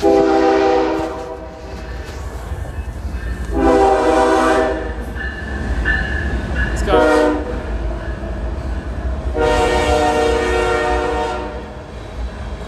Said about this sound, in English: But yeah, I think there's a train coming. I think I'm at the spot where the train stops.